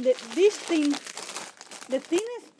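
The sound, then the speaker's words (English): Crinkling of packaging as a new MacBook Air is unwrapped, rustling in irregular bursts under a person talking. “And as I was saying in the other audiobook, I am unwrapping the MacBook Air.”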